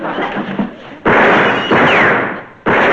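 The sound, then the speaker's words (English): Gunshots ring out as a few loud, abrupt blasts, each with a long, noisy tail that slowly fades before the next one hits. “I've been counting the shots. His gun is empty.”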